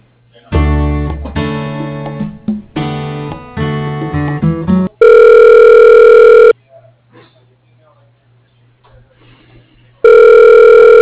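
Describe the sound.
Telephone ringback tone while a call is transferred: two long, steady, buzzing ring bursts, each loud and separated by a quiet gap, after an earlier stretch of varied tonal sounds.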